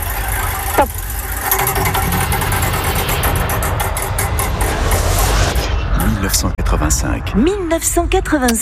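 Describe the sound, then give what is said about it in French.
A spinning wheel sound effect plays in a French radio game where a year is chosen, with a steady whirring rumble that breaks into a run of rapid, sharp ticking clicks toward the end. “on lance la roue du temps, vous nous dites stop quand vous voulez pour choisir, enfin, tomber sur une année.”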